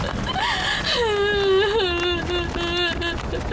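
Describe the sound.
A person wails and sobs in grief after a drowning. The cry is sustained and wavering, with gliding pitch, over a constant noisy background.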